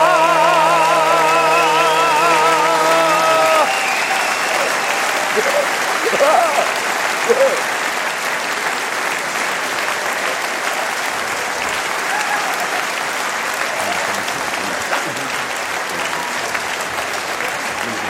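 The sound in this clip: Sustained audience applause fills a live event, many hands clapping in a steady, dense roar. A held tone sounds for the first few seconds, and faint voices rise briefly amid the clapping.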